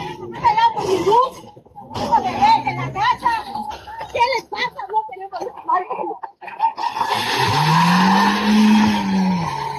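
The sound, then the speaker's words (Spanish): A car peels out with screeching tires during a tense road blockade by protesters on the southern ring road. Loud, excited voices come first, then a sustained roar of engine and shrill tire squeal fills the end. “Y ahí estaba escuchando usted el tremendo arrancón del vehículo que se alcanza a oír al final del audio”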